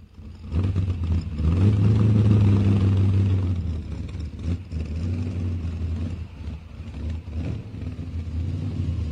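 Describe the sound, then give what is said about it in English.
A race car engine revs as a loud, deep rumble that swells over the first few seconds and then holds steady with some mechanical clatter, with no voices. “there you go, race car. Yeah, that's more like it. You realize that the recording of this motor,”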